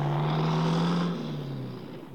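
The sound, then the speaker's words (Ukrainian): A car drives along a road at night toward a crossroads, giving a steady, fairly loud engine drone with a low humming tone that continues without a break. No voices are heard. “У супокойливой дремотной темры его машина наближалась до скрыжования дорог.”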